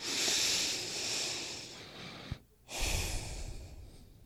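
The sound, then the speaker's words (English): One deep human breath, a long airy inhale that tapers off, a brief silent pause, then a breathy exhale, fairly faint and with no voices. “So I'm going to invite everyone to take a deep breath, not a medium or a small”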